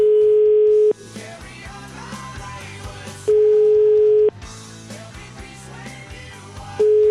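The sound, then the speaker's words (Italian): Ringback tone of an outgoing phone call: a steady low beep in one-second bursts with long regular gaps, two full rings and the start of a third, with music playing in the gaps. “Proviamo a chiamarlo, dai, Polara.”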